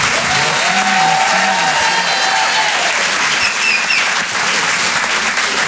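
Loud applause from a comedy club audience after a stand-up set, a continuous, even wash of clapping that keeps its full strength from start to finish.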